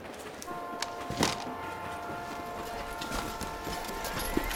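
Horse hooves clip-clop faintly as the animal pulls a cart loaded with sardines, anchovies and cod in Málaga. A few irregular knocks sound over a steady low rumble.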